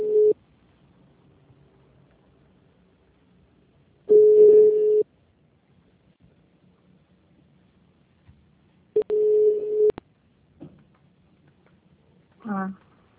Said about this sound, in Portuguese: E tem alguém ligando.